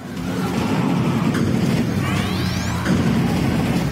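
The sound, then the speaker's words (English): Machine-gun fire from a 1995 PlayStation 1 video game forms a dense, unbroken barrage of loud clattering shots and crashes, with a rising electronic sweep cutting through partway. “Lots of machine guns. 1995? Yeah, 95. The hint I'll give, the other hint is it's PlayStation console.”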